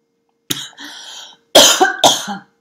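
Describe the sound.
Coughing and throat clearing from a person with something caught in the throat. The sounds come in a few loud, rough bursts with short pauses between them.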